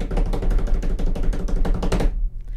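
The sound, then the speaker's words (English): Rapid drum-roll tapping by hand on a hard surface, many quick hits in a dense, even burst that stops abruptly near the end, with no voice over it. “Should I do a drum roll? I'm gonna do a drum roll.”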